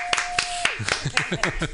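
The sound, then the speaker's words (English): Hands clap in a steady, brisk rhythm for a dance diva singer. The claps are sharp and distinct rather than a dense roar, and a voice talks over them. “Let's have a nice round of applause for the iconic singer herself, the dance diva, Miss Kim Sims.”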